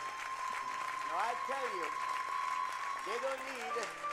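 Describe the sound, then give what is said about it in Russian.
Audience applause, a moderate wash of clapping hands that continues evenly beneath a speaking voice talking over it. “Так что давайте им еще похлопаем разок, да?”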